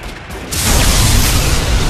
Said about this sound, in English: An explosion erupted at the temple ruins, ending the storm of bolts raining on Grant.